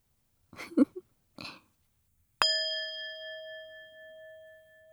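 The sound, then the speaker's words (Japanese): A metal singing bowl is struck once, giving a sharp attack and then a long, pure ringing tone that slowly fades. A few brief, soft vocal noises come before the strike. “お寺の ASMR？ 違うんだ。これはシンギングボール。”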